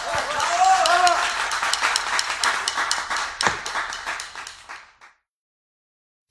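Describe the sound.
Applause: a loud, dense burst of many hands clapping that gradually thins into scattered claps and dies out after about five seconds, followed by silence.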